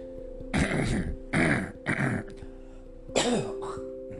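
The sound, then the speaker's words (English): Coughing and throat clearing from someone taking a mucus-loosening medication: a few harsh, chesty bursts with short gaps between them, over a low steady hum and with no talk. “Sorry about that, folks. I'm taking this mucus medication that's supposed to provide... your fluids to come out, and mostly it makes you just feel sick and cough and not do anything”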